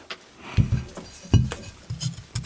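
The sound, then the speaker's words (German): A knife cuts a potato in half beside a glass plate, giving a few short knocks and clinks of glass and cutlery, with quiet pauses between them. “Kartoffel in der Hälfte durchgeschnitten.”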